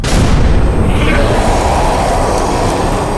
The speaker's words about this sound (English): Light him with a flash grenade. Right. 3, 2, 1.